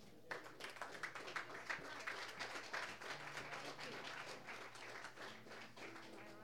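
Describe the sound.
Audience applause welcoming a guest to the stage: dense, continuous clapping from many hands for several seconds at steady loudness.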